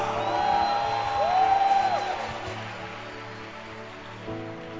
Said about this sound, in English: Clap your hands for powerful testimonies.